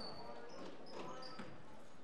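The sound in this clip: Faint basketball dribbling during a women's college game, with a few soft bounces on the court under continuous play-by-play talk.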